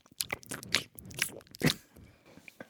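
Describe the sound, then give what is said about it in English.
Crunchy eating sounds from someone biting and chewing, with several sharp, faint crunches at an irregular pace and quiet gaps between them. “the sound of me eating your lungs.”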